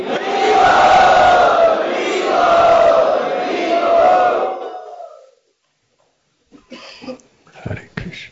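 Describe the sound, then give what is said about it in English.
Crowd at Sri Radha Gopinath Temple loudly chanting a welcome in unison, a sustained, full-voiced chant that swells and then fades out, followed by a few brief softer sounds. “We are very honored to welcome Malati Devi, Nartaki Devi, to Sri Radha Gopinath Temple. Let us welcome by loudly chanting.”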